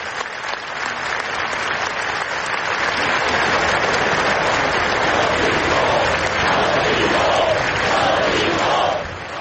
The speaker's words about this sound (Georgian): წუთიერი დუმილს მოჰყვა შეკრებილების ტაში და შეძახილები.